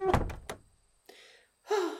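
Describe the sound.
A door being shut as someone steps out of a barrel, heard as a quick cluster of sharp knocking thuds, followed by two softer, noisy rustling sounds.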